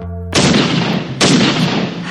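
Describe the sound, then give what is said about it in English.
Gunshots ring out upstairs: two loud, sharp blasts about a second apart, each followed by a long, rumbling decay that fills the pause before the next. “I have to hang up, Selma. They're shooting upstairs.”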